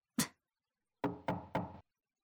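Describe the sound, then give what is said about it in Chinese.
Knocking on a door: a single sharp knock, a pause, then three quick knocks in steady succession, each crisp and loud against otherwise silent surroundings. “是哪个混蛋这个时候来敲门？”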